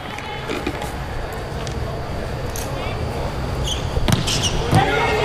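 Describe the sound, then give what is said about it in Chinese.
Sharp thumps of a volleyball being served hard in a men's match, with China's men's team playing; two impacts come near the end under continuous commentary. “球依然发得非常好。 嗯，好发球， 发球连续得分。”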